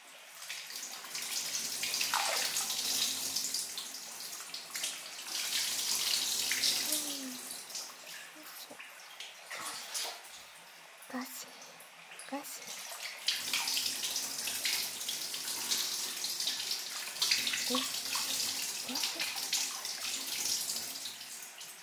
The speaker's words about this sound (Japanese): ベタベタしたままでは気持ちが悪いですよね。今お流ししますね。